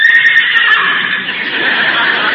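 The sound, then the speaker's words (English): A man's voice imitates a horse whinny, a loud, bright, wavering neigh held for about two seconds with no break. “What's your horse so excited about? That wasn't the horse. That was me.”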